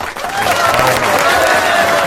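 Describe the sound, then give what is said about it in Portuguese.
Applause and cheering greet Brazil's six-time champion national futsal team. Loud clapping swells after a brief dip at the start, then holds strong, with cheering voices mixed in. “palmas aqui para a seleção brasileira de futsal.”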